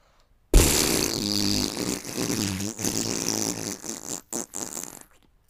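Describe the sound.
A long, wet, sputtering fart from diarrhea, loud and rumbling with crackly, bubbling texture. It runs for several seconds and breaks up into a few short final bursts before stopping, alone without talk.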